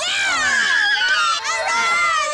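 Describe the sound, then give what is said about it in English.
Children shouting and cheering at a boys' club, a dense mix of high, excited voices calling out together, loud and continuous through the brief moment. “Quick, what does a boys' club sound like? Hooray! Well, it sounds like this.”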